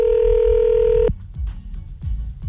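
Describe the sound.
A telephone is dialed to call back: a steady, loud dial tone hums for about a second, then cuts off, and a few short, dull bursts follow.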